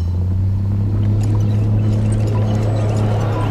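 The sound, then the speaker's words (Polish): Dishwasher jets spray water onto a dirty plate crusted with dried sauce and pasta, making a steady, loud, low rumbling hum with constant hissing water noise throughout. “Dysze wystrzeliwują wodę prosto w resztki sosu. Zaschnięty makaron kawałek po kawałeczku odpada z brudnego talerza.”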